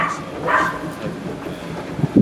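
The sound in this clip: A neighbour's dog barks in a garden, giving a few short barks over a steady outdoor background, with a lower, louder yelp near the end.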